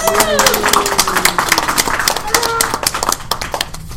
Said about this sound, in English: I just want to say thank you guys for hosting us. You guys do an invaluable service, and we owe a round of applause to you.